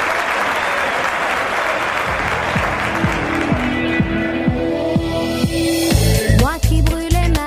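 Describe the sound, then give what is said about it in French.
Theatre audience applause as the curtain opens: a dense, steady wash of many clapping hands, joined in the second half by sliding pitched tones and sharper bursts that grow louder toward the end. “Le rideau s'ouvre. Oh, les applaudissements!”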